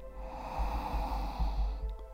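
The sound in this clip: A person takes a deep breath in during a guided breathing exercise, a soft, airy rush with low breathy puffs over a steady hum; no talk.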